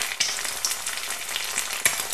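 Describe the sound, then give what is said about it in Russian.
Dough balls deep-frying in hot oil in batches of four, giving a continuous bright, crackling sizzle with a few sharp pops, fairly faint and steady. “Аккуратно опускайте шарики теста в масло партиями по 4 штуки и обжаривайте по 2 минуты на каждой стороне.”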